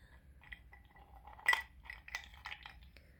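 Ice cubes clink in a few faint, bright taps scattered over about three seconds, one slightly louder near the middle, with no talk.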